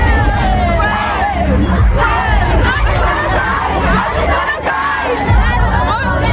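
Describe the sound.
A crowd of fans loudly singing and shouting outside a concert arena in Munich before a pop concert, a dense roar of many voices carrying a melody, with cheers and yells mixed in.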